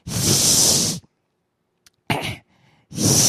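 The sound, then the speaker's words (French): A voice imitates a hissing snake: one long breathy hiss, then silence, then two shorter hissing bursts, all fairly loud. “Je me sens comme un serpent sifflette.”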